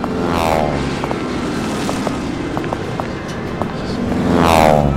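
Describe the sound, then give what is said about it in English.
A fleet of non-passenger aircraft flies past with a steady, loud propeller-engine drone. Rising and falling harmonic tones appear near the start and end, and the roar swells toward the close. “It looks like a fleet. John, you were a pilot. What the hell are those? They're all left of my time, Ken, but I can tell you they're certainly not passenger planes.”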